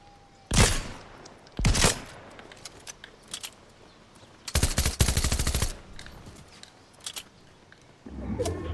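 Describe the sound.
Bursts of gunfire from shooting in a video game: two short volleys, a longer rapid-fire burst in the middle, and another volley starting at the end, with quieter gaps between them.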